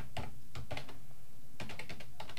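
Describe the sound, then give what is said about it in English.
Fingers type on a computer keyboard to enter an email address, with quick clicking keystrokes in two bursts separated by a short pause. “Okay, see, enter your email address and select your state and hit start here.”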